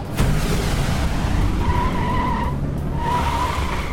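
Tires skid as a car fires its turbo boost: a steady, loud roar of engine and road noise. Two high squealing tones cut through it, the second after a short break.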